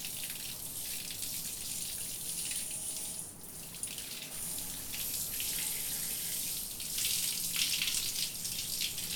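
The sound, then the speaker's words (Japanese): Steady running water rinses shampoo foam out of hair, a continuous bright hiss and splash that holds an even level for the whole stretch with no voices. “泡残りがないようにしっかり流すからね。ちゃんと流さないと逆に頭皮に良くないんだよ。”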